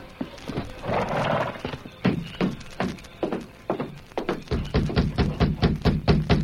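Hooves of a horse clip-clopping as its rider draws rein at a small white ranch house near midnight; steady, clattering hoofbeats carry throughout, growing sharper and more regular toward the end.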